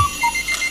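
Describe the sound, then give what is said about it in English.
Electronic alarm clock ringing: a few short, bright beeps in a quick, regular pattern, clear and fairly loud over a faint background, with no talking. “Sorry, you're guaranteed to be up before the alarm.”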